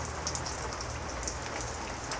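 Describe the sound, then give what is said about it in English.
Heavy rain pours down on a surface in a constant, dense hiss of countless drops, loud and unbroken from start to finish with no voices. “Oh my God, that does not sound light. Does it sound light? Well, I know thunder and lightning and great big drops up north and back east, but here, this is heavy rain.”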